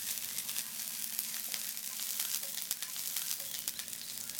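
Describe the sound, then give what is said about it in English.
Onion sizzles as it sautés in a frying pan, a steady bright hiss dotted with many small crackles and pops throughout, with no talking. “And just saute that for, you know, just until the onion begins to soften.”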